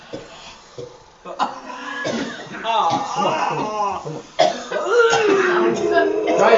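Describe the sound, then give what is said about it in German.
People coughing during a prayer meeting: harsh coughs and throat-clearing mixed with overlapping voices, loud and continuous. “Just try two pumps. Just two. Zweimal husten.”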